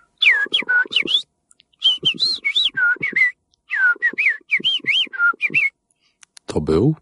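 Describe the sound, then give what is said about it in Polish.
Human whistling imitating the call of an invented bird: quick, modulated notes that swoop up and down, grouped into several bursts separated by short pauses, then a brief noisy rustle at the end. “Stąd się wziął ten prosty gwizd, który nauczyłem się modulować i to jest taka baza, do której później można dodawać różne dodatki, żeby to brzmiało bardziej realistycznie.”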